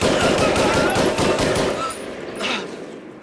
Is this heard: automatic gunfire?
yes